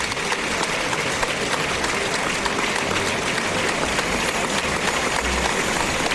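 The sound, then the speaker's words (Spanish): Bullring crowd giving a loud ovation to a bull during its slow lap around the ring: continuous, dense applause from many hands, steady and strong for about six seconds. “Y el público que ovaciona fuertemente al toro de Olga Jiménez.”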